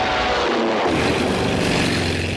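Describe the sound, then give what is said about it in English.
A biplane engine drones without a break while the aircraft flies a barrel roll, a loud, continuous roar whose low end briefly thins and then fills back in. “The Major grins as he puts the plane into a barrel roll.”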